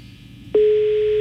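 Telephone line tone on a call to a Mexican number that goes unanswered: one loud, steady electronic tone begins partway through and holds to the end over a faint low background.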